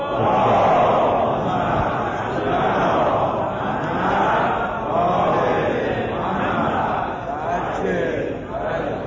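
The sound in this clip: An audience recites salawat, a blessing on the Prophet, in unison: a dense, sustained mass of many voices chanting steadily throughout without pause.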